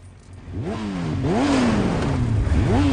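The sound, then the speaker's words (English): Motorcycles carrying pillion passengers rev hard as their riders drive off. The engine pitch sweeps upward several times, and the sound grows louder and holds strong to the end. “A fire ignites inside the vehicle, and the bikers drive off.”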